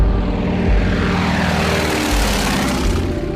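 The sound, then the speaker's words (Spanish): A propeller airplane flies with a loud, steady engine drone. The low hum sits under a broad rushing roar and holds even throughout, with no voices. “Aquella joven menuda logra mantener el avión a más de 1000 metros de altura durante 100 gélidos e interminables minutos.”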